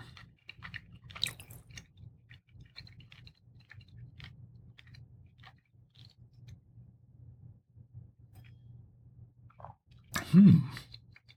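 Soft, close chewing of a piece of grilled, marinated steak. Faint, steady mouth sounds continue throughout, with a brief louder noise near the end.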